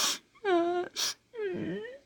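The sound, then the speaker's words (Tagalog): A person cries during an emotional reunion with a partner, giving two drawn-out wailing moans, the second wavering in pitch, each preceded by a sharp breathy gasp. “Iyak ako, baby.”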